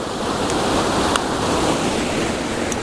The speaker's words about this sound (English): So I'm really low. I'm as close to this waterfall as I can get.